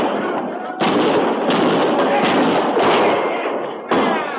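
Gunfire rings out in a battle with Indians at a frontier army camp in a 1950s Western radio drama. Several loud, sharp blasts, each with a long rolling tail, overlap one another.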